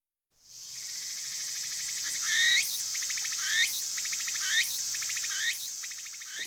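A cricket-like insect found on cherry and persimmon trees, forests and orchards chirps in a loud, continuous high-pitched trill, with sharper sweeping chirps accented roughly once a second.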